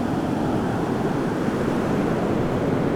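Ocean waves of a huge body of water make a steady, loud rushing roar of surf and wind that runs without clear breaks.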